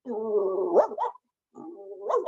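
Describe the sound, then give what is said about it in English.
A human voice imitates a dog barking from across the street: two drawn-out, throaty, bark-like calls, each ending in a sharp upward yelp, separated by a short silence. “my impersonation of a dog barking from 3 blocks away. And I go, a dog barking from across the street.”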